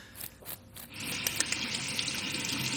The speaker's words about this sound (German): Spülen. Und abtrocknen.